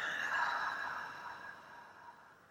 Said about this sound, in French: Inspire. Expire.